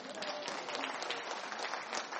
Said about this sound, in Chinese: 我们给掌声两位